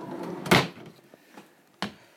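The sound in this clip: A kitchen drawer slides open and shut, giving two distinct knocks: a heavier thud near the start and a shorter, sharper one at the end, with quiet rustling in between.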